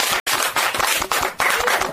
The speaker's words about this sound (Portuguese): A resposta da Ivânia está correta? Sim! Uma forte salva de palmas pra ela.